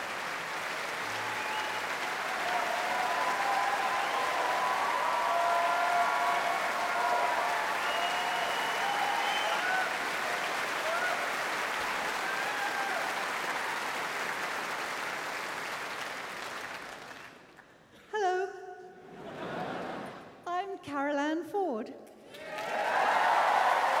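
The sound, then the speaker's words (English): Audience applause rings out for an early television companion, a dense, steady wash of clapping that holds for about seventeen seconds, then stops as a single voice begins speaking. “Now, applause for another early companion.”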